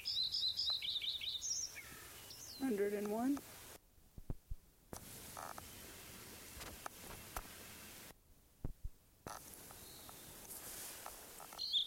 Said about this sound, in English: Lincoln Sparrow number 1 continued at Bluff Lake.